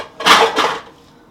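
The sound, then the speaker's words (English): A bowl is taken out and set down for seeds, making two short ceramic clatters in quick succession before it goes quiet. “Well, you want the seeds, don't you? Yeah. I was just going to get a bowl for them.”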